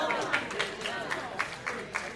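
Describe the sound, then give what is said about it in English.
A church audience claps in a steady rhythm of about eight sharp claps, faint and evenly spaced, beneath people talking. “All the people that are clapping are the people that come on Tuesday and Wednesday, Monday.”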